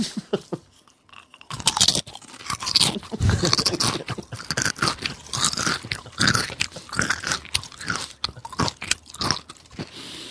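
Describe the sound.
Cool Ranch Doritos crunched and chewed, many loud, crisp crunches in an irregular rhythm after a brief quiet start, with no talk.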